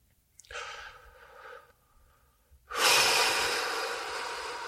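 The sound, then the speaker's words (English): Deep breathing during guided meditation: a soft, drawn-out inhale, a brief pause, then a much louder, airy exhale that slowly fades toward the end. “Exhale, big breath in, medium breath, or regular breath.”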